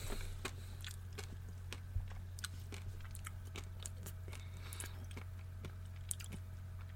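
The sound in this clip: Chewing on a cheap piece of confectionery costing about 5p: many faint, irregular wet clicks and small crunches over a steady low hum, with no talking.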